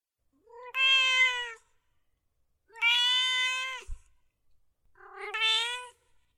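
A cat meows three times, each a clear, drawn-out cry separated by silent gaps. The third meow is shorter and pitched slightly higher than the first two.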